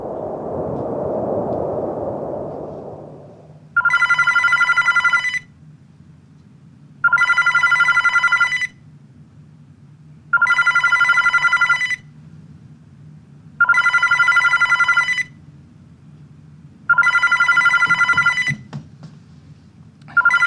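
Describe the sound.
In a radio drama, a telephone rings five times before the call is answered. Evenly spaced bursts of bright, trilling electronic ringing are separated by quiet gaps, after a short opening whoosh of noise.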